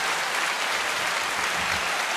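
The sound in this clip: Celebration applause rings out as a dense, steady burst of clapping that stays even from start to finish.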